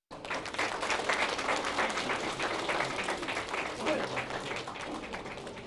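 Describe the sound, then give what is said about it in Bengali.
Audience applause after a Bengali cultural performance at a New Year celebration: dense, steady clapping that starts abruptly and holds at full strength for about five seconds, with no speech over it. “Bangla সংস্কৃতির এই পরিবেশনা উপস্থিত সকলের বিপুল করতালি লাভ করে।”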